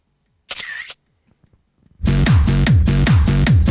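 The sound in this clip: A camera shutter takes a photo, firing as a rapid burst of loud, sharp mechanical clicks in a steady rhythm. Before it comes a short electronic chirp and a few faint taps.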